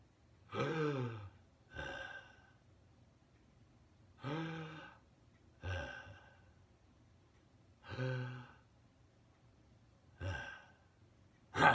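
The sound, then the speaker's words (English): Several people take slow, deep breaths together, each breath swelling into a voiced, sighing rush of air. About six breathy swells are separated by quiet pauses. No speech. “Let's take three big breaths, okay, and think of three good things together.”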